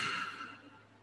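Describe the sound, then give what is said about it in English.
A slow, deep inhale during a guided breathing exercise, heard as a soft, airy hiss that is strongest at the start and then thins and tapers off over about a second, quiet and without talk. “So go ahead and inhale very, very deeply.”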